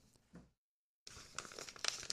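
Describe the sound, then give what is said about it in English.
Paper crinkling and tearing as an envelope nested inside another envelope is ripped open, a short soft rustle, a silent gap, then a longer stretch of scratchy tearing, all quiet. “There's an envelope in an envelope. There's a no agenda stamp on there, I think. I don't want to break that.”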